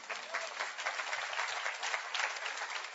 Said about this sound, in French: que Dieu soit béni, il y en a 15 qui applaudissent.